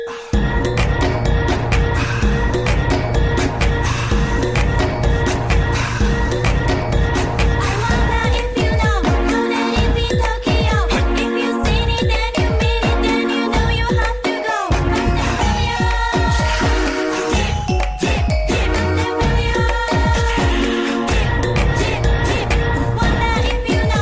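A loud hip-hop track plays without a break for about 24 seconds, with a dense, driving beat and layered synth lines throughout.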